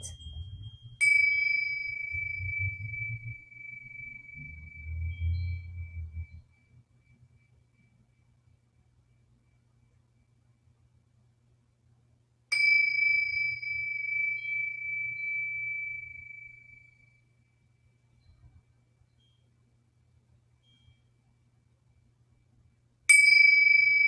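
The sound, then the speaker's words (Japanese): Tibetan tingsha hand cymbals rung during a live singing bowl sound healing session: three bright, high metallic dings spaced far apart, each ringing out with a long, slowly fading shimmer before the next strike. “チベタンシンキングボール。これがティンシャというやつです。今、鳴らす。”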